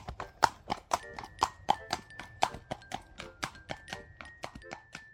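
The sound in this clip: Hooves of a donkey named Sabut clip-clop in a steady walking rhythm, many crisp hoofbeats in a row at moderate loudness.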